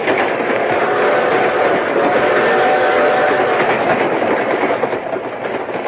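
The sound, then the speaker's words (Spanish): A train riding along the rails, with a steady, loud rumbling roar and a rhythmic clickety-clack that holds throughout without any voices. “Lilia y María del Carmen abordaron el tren para dar una vuelta a la hacienda”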